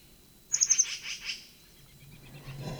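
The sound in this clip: Distant bird giving a chulep call: a rapid run of high, bright chirping notes that quickly fade, faint over a low, steady background noise.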